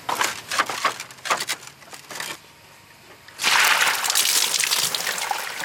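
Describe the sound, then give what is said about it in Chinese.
A heavy water leak splashes in choppy, uneven bursts, dips to a quieter spell, then breaks into a loud, continuous rushing pour. “我的妈！ 超级大漏水。 下大雨了，救命啊！”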